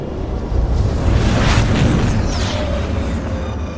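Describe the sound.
A spaceship drops out of hyperspace as its throttle is dialed back, a loud, steady low rumble that fills the whole stretch, with a brief bright whoosh sweeping through the middle.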